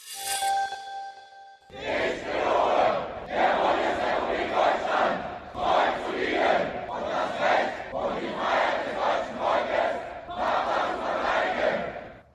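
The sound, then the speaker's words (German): Four hundred Bundeswehr soldiers take their pledge in front of the Reichstag in Berlin, their massed voices reciting loudly in unison in a series of phrases separated by brief pauses. “So hört sich ein Gelöbnis der Bundeswehr an. Vor einer guten Stunde haben 400 Soldatinnen und Soldaten ihr Gelöbnis abgelegt. Und zwar nicht irgendwo, sondern vorm Reichstag in Berlin.”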